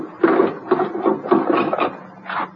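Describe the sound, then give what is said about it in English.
Bolts slide back one after another on a wooden crate, making several squeaky, scraping metal-on-wood slides in a short, uneven sequence at moderate loudness, with no voices. “Just let me slip these bolts.”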